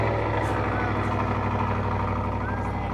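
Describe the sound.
A truck engine runs at a steady idle at an outdoor overland expo, a loud, continuous low rumble with a constant droning tone that holds level for the whole stretch.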